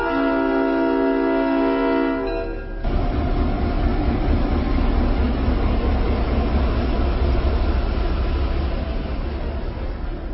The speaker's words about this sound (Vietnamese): Con tàu từ từ rời sân ga.